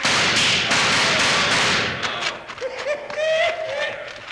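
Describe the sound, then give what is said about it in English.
Several sharp gunshots ring out during a Western gunfight dramatization, loud cracking bursts in the first half, followed by quieter scuffling and a thin whistling tone. “Not bad, Bill. You come out all right? Yeah, partner. That was right nice shooting.”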